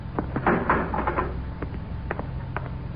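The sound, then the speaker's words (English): A spaceship hatch opens with a short clatter of clicks and knocks over a low steady hum, followed by a few scattered taps. “Stand by to open in the hatch. I'll apply the repeller ray. Yes, sir. Open the hatch.”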